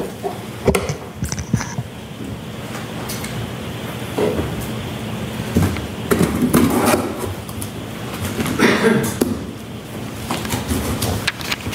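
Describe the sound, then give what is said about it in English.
Tape tearing and cardboard rustling as a taped-up box is opened, with irregular scraping and crackling bursts that grow busier toward the middle and end. No voices are heard. “Okay, I'm going to now ask you to open the box, please.”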